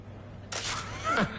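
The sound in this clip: A camera taking a photo, a faint, brief, crisp shutter snap with a short mechanical rasp following it.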